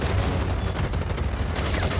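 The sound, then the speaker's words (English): A squad fires a sustained, loud volley of gunfire on command at an approaching monster. The shots blur into a dense, continuous roar with no clear gaps. “Roger. Ready. Aim. Fire.”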